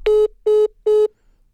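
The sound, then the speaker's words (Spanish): Three short electronic beeps follow a dropped telephone call. The identical steady tones are evenly spaced and fairly loud, then give way to near silence. “creo que por temas técnicos se nos cayó la llamada. Voy a hacer el enlace de nuevo”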